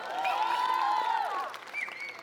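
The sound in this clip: Brief applause for a camp speaker at a Thursday night camp session: moderate clapping with a few high whoops and cheers, easing off toward the end.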